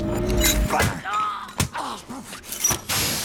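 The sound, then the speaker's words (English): Metallic clanks, a sharp crash and heavy thuds as a metal pipe is yanked loose from its ceiling bolt during a fight scene. The hits are loud and irregular, with brief vocal sounds between them. “The bolt holding the pipe to the ceiling is loose. He pulls down hard.”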